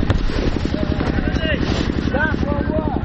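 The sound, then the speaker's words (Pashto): An old diesel mill engine runs to power the lights for a football field, giving a rapid, steady low thumping throughout while a voice speaks over it. “او د لوبغالي د رڼا کولو دپاره هغه پخوانی ټک ټاک یا هم د ژرندې ماشین چالان دي او لوبغاړي ته یې رڼا پرې برابره کړې ده.”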